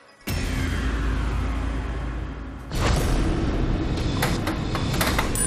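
A counter drops through a coin pusher game machine on a game show, giving a steady rolling rumble that begins abruptly, then a louder rattling clatter with a few sharp clicks over the second half.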